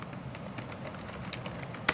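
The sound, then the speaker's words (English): Keystrokes of a password being typed on a computer keyboard at a login screen: many quick, light clicks in an uneven run, with one sharper, louder tap near the end. “Type in the password”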